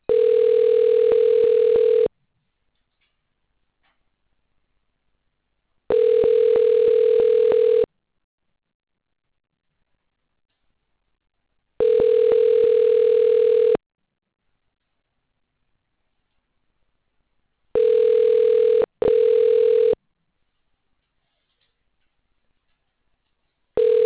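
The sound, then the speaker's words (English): Telephone ringback tone while a call is transferred to a corporate advisor, steady buzzing rings of about two seconds each separated by longer silences, three long rings followed by two short bursts in quick succession. “For a corporate advisor, transferring your call.”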